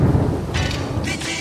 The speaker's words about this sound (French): Allez, hop, le déluge. Comme ça, grand nettoyage. Aujourd'hui, une pluie s'abat sur la totalité de la planète Terre.